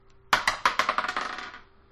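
Dice clatter across a table during a tabletop roleplaying game: a sudden burst of many quick, bright clicks that tumble and bounce, then fade out over about a second and a half, with no talk.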